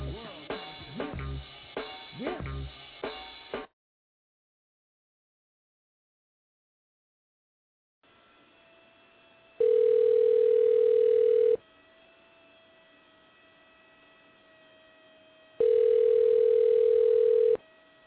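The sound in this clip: A telephone line tone sounds during a prank call: two long, steady, loud tone bursts of about two seconds each, separated by a longer gap, over a faint continuous line hum. They follow a brief opening sound and several seconds of silence.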